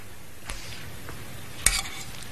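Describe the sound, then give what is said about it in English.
Food being placed into a slow cooker, with two brief soft knocks, the second a little sharper, against an otherwise quiet background. “Into the slow cooker they go, and then I want the sauce to go on top of them.”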